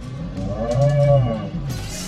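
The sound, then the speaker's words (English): A poker blind-level timer alert that sounds like a cow's moo: a single low, drawn-out lowing tone lasting about a second, swelling in the middle and then fading, heard alone. “That was the sound of a counter incrementing deep within my processing core, informing me that it's time to raise the blinds again. I'll adjust its frequency so you can hear it too.”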